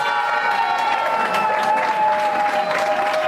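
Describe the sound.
Participants applaud and cheer the winning team at a competition prize announcement, with continuous dense clapping and sustained cheering voices running together at an even, loud level throughout.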